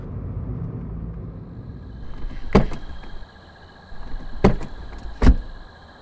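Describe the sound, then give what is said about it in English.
A car pulls into a residential neighborhood shortly after midnight and stops. A low engine rumble fades, then three sharp clunks follow at uneven intervals. “It's shortly after midnight when Bruno drives into a residential neighborhood and stops.”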